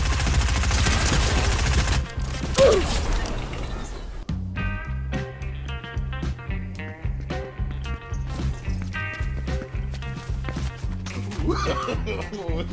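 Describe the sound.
Rapid, dense gunfire bursts from a video game fill the first seconds, then give way to steady, rhythmic music that runs to the end.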